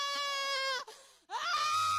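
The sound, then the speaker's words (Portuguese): A woman screams during an exorcism: two drawn-out, high-pitched, strained cries separated by a short gap, the second one rising in pitch. “Olha o grito de derrota do diabo!”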